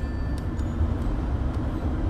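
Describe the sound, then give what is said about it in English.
A dump truck dumps its load in the Bozeman–Belgrade area, heard as a continuous heavy low rumble and drone with no distinct separate impacts. “Got ourselves a dump truck. Got ourselves a dump truck dumping. Just dumping away.”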